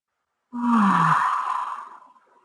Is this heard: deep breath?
yes

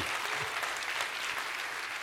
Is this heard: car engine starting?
no

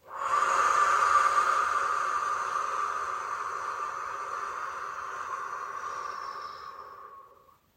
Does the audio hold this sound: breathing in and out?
yes

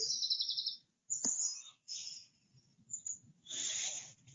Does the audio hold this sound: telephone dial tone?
no

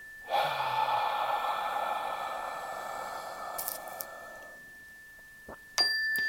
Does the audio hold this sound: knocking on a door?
no

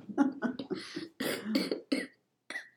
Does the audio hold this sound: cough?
yes

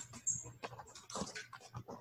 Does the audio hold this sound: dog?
yes

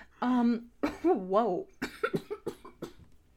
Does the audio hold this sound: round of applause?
no

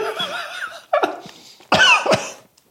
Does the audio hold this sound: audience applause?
no

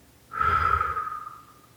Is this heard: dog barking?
no

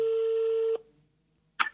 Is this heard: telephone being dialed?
yes

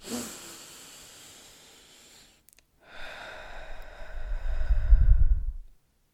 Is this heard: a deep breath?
yes

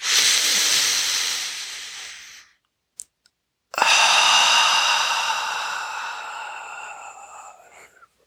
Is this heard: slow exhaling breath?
yes

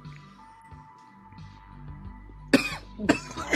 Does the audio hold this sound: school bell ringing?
no

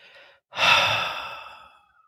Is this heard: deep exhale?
yes

